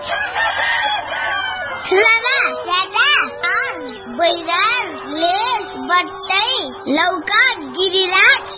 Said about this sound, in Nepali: सबै चल्लाले खाने दाना पाइने रहेछ